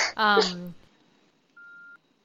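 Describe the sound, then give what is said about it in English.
A single short, steady electronic beep as a recorder turns off. It comes after a brief snatch of voice and is followed by silence. “You probably just heard like a beep a second ago, and like the recorder turned off”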